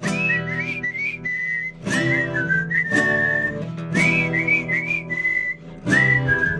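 A person whistles a song, a bright, high melody in several short phrases separated by brief pauses, clear and fairly loud.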